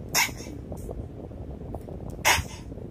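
Sniffling from a runny nose while crying: two sharp, prominent sniffs near the start and end, with a few fainter snuffles between them over a low background hum.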